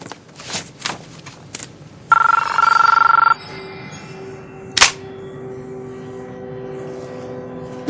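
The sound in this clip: A telephone ringing in a film scene, heard as one burst of steady high-pitched ringing in the middle, with a few soft thumps before it and a sharp click afterward over a low background hum.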